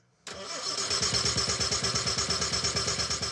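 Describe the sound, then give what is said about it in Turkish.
An engine cranks with its spark plug wire removed, turned over to draw oil. It kicks in suddenly and runs into a steady, fast, rhythmic chugging of many even pulses, fairly loud and with no voices. “Ardından da motoru çalıştırıp yağ almasını sağlayacağız. Gayet iyi durumda. Evet gerçekten iyi. Bir kez daha.”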